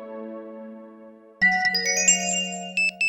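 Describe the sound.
A phone notification tone sounds for an incoming email: a soft held electronic tone gives way to a bright, louder chime of several clean synthetic notes, ending in a couple of short pulsing beeps.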